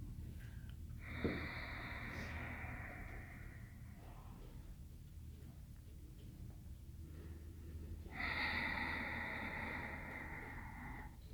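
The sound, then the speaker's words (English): Two long, faint breaths during a yoga session, a deep inhale and exhale drawn out over a few seconds each. They are separated by a quiet pause of several seconds and have a soft, airy, slightly raspy texture. “And one more big breath in. Exhale, relax down onto your belly.”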